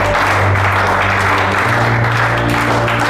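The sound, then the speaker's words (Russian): A crowd applauds as everyone stands up. The clapping is loud, dense and continuous from start to finish. “Все встают, аплодируют.”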